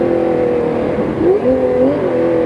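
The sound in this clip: Porsche 917 race car engine at Riverside accelerating from second into third gear: a loud, continuous tonal roar whose pitch dips briefly at the shift, then climbs again.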